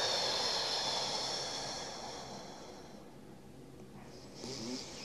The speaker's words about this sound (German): Du atmest kurz aus und du konzentrierst dich vor allem aufs Ausatmen durch den Mund.